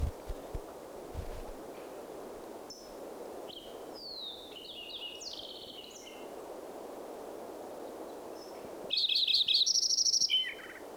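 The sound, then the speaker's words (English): Fox sparrow song mixed with other birds during a count, clear whistled and chirping phrases rising above a low steady background hiss, with a louder, busier burst of song near the end. “Fox Sparrow mixed in there.”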